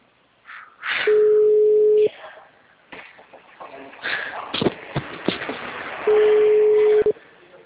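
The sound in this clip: Ringback tone on an outgoing telephone call: a steady mid-pitched tone sounds for about a second, then a long gap of faint rustling and clicks, then a second one-second tone.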